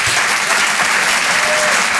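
Loud, steady audience applause greets a comedian at a live comedy and song show, a dense, unbroken wash of clapping with no pauses.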